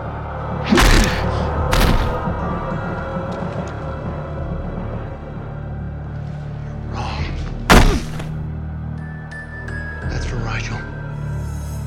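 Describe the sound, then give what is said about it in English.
Heavy blunt thuds of guns striking a man's head: several sharp, loud impacts spread across the stretch, two close together early and more later, with voices around them. “All the big loud noises you heard were people hitting Cobb in the head with guns.”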